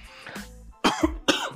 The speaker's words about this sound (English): And I'm sorry I'm coughing and stuff like that